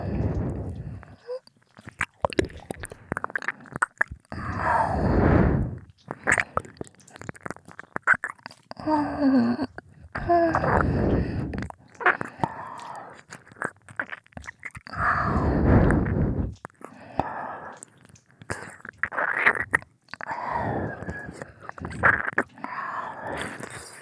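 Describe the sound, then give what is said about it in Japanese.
Wet ear-licking ASMR mouth sounds come as many close bursts of licking, squishing and smacking, separated by short quiet pauses and varying in loudness. “耳なめをしちゃうんだよ。ご主人様のお耳、食べちゃおう。”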